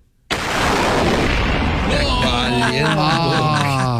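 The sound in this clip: A voice imitates a car's bang from under the hood after the engine overheated on a freeway: an abrupt, loud, hissing burst that holds, then turns into a wavering voiced tone.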